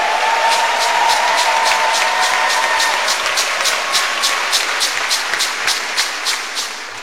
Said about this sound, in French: père fondateur de notre groupe que je demande d'acclamer, acclamer, acclamer.